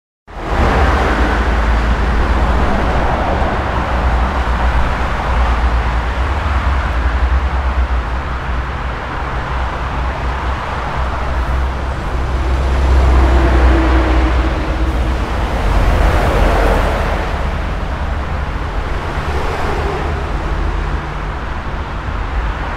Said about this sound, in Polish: Tu słyszymy ponownie ruch uliczny